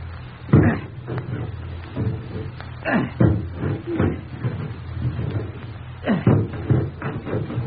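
A large axe chops at a locked bedroom door, giving many heavy, sharp thuds and splintering knocks at uneven intervals, some blows much louder than others.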